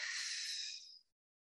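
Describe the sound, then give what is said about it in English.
A deep breath drawn in during a guided breathing exercise: one soft, airy hiss lasting about a second that fades out into silence, with no talking. “And now the third breath, breathe in deeply.”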